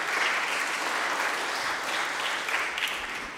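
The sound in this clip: Audience applause at a school gathering honoring music and Sunday school programs, a dense, steady clapping that holds throughout and tapers slightly near the end.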